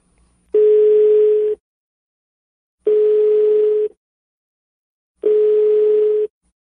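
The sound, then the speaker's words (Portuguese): A telephone ringback tone on an outgoing prank call, heard as three steady mid-pitched beeps of about one second each, evenly spaced by longer silences, with no talking. “Vamos ligar pra ela?”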